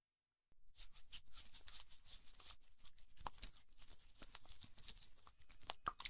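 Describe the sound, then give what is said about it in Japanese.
Slick oil being rubbed over both ears at once during an ASMR oil massage: a brief silence, then continuous crackling, crinkling friction that runs steadily and close without a break. “オイルマッサージも両耳同時にやりましょうか。とりあえずオイルを塗って。”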